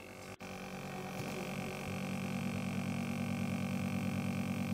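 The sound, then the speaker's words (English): Oxygen machine helping a patient breathe: a steady, even droning hum that runs unbroken and at a constant level, apart from one brief dip near the start. “That sound you're hearing is the sound of the machine that helps her to breathe.”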